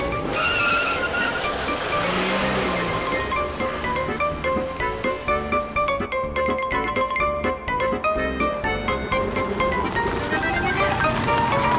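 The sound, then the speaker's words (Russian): A car speeds and skids. A loud, continuous roar of engine and tires runs throughout, broken by dense rapid ticks and a brief squeal. “примчался к дому, оставив машину на газоне.”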